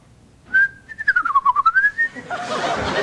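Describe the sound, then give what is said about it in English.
A whistled call given as the distinctive song of an endangered emerald-crested night thrush: one clear held note, then a quick warbling trill that dips and climbs back up over about one and a half seconds, followed by a rush of noise. “I haven't seen an emerald-crested night thrush since I took bird watching in college. To meet chicks. But when I heard this little fella's distinctive call,”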